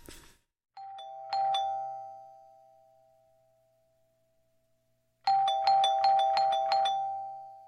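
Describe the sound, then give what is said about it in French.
A doorbell rings: one two-note chime that slowly fades away, then after a pause a rapid run of repeated bright chimes. “Ah, voilà quelqu'un qui sonne.”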